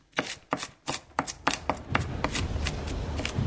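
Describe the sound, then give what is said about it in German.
Shallots are chopped finely with crisp, sharp strikes, spaced apart at first, then coming quicker and denser into a busy patter, with no talking. “Aber erst muss ich noch die Schalotten schön fein hacken.”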